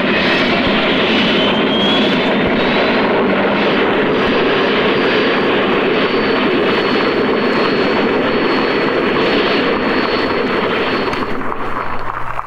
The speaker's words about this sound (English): That was the sound of the turbine experimental.